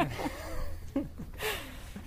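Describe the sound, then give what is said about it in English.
Heavy, ragged breathing comes from someone walking up a steep slope, with faint gasping breaths repeating unevenly at a low level. “I'm breathing because I'm working. We're going up a steep slope, yeah.”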